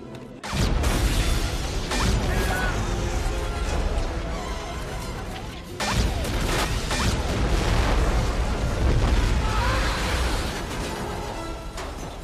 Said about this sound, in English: Our new tank buster. Depleted uranium cells.